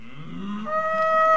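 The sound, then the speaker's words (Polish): Cattle mooing at pasture grazing: one drawn-out bovine call that starts as a low, throaty tone and then shifts into a higher, steadier moan, growing louder toward the end, with no voices. “Upragniony wypas bydła.”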